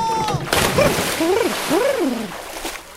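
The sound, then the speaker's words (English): A cannonball jump into a new backyard pool lands with a sharp, loud splash, then water sloshes as a voice makes sliding, wavering exclamations over it. “Well, I just installed a new pool in my backyard. After 1 day of practice, I bet I'll be the fastest swimmer in the whole county. Cannonball!”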